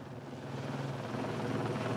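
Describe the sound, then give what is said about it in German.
A helicopter flies about 15 metres above the ground carrying signals on its hook, its rotors making a loud, steady, throbbing drone that holds constant throughout. “Der Helikopter fliegt gerade mal 15 Meter eben über dem Boden mit den Signalen am Haken.”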